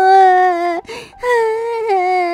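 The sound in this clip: Tearful crying: two long, high, sustained wails broken by a brief gasping sob in the middle, loud and strained throughout.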